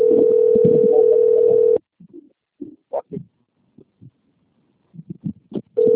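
A long, steady ringback tone sounds on an outgoing phone call placed by a financial consultant. It rings for about two seconds, then gives way to near silence with a few faint, brief sounds. The tone starts again at the end.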